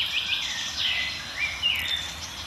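Agitated birds, among them a blackbird, tits and a warbler, give alarm calls. Faint, high, thin chirps and short whistling notes come in scattered bursts over a soft background hiss.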